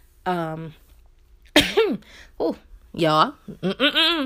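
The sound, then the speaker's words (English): Throat clearing by someone on a talk recording: a short series of voiced, rasping bursts with shifting pitch, separated by brief pauses, loud and alone with no other sound. “that was me straightening my throat. Okay. Clear my throat.”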